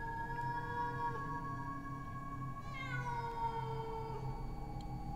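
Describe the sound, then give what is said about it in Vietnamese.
A female cat in heat caterwauls at night in a graveyard, a long, sustained wailing cry rich in tonal harmonics that holds steady through the whole stretch with one bending, drawn-out shift midway. “chắc là có con mèo cái động đực đi hoang, cứ kêu đến não cả lòng. Tổ sư cha, nghe cái tiếng mèo kêu trong đêm”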